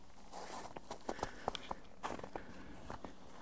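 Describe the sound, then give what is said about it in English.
Footsteps climbing up out of a ditch and walking back, a steady series of soft, uneven steps with sharp scuffing crunches, faint against a quiet outdoor background. “Now I'm walking back.”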